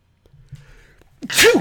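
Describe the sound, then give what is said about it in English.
A held-back human sneeze finally bursting out: faint shuffling and small breathy sounds build briefly, then one loud, sharp, explosive sneeze ends the moment. “Wait, I was about to sneeze, but the truth was about to come out, so my sneeze is being held back.”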